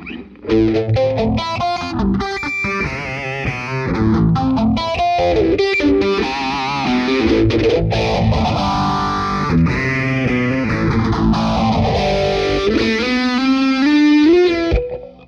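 Distorted electric guitar riff on a Telecaster, played through a signature-model phaser pedal. Loud, steady chugging notes carry a slow sweeping whoosh that rises and falls twice across the passage, with no talk over it.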